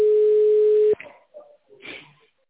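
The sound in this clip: A steady, unbroken telephone line tone plays while a call to a company's secretary is transferred. It holds for about a second, then cuts off, leaving a few faint, brief sounds.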